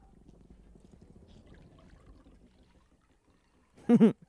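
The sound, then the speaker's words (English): Faint, steady pouring of liquid aboard a moving ship, a low trickling wash that lasts for several seconds, followed near the end by a brief, loud voiced burst. “He's pouring it as it's moving because this ship is moving.”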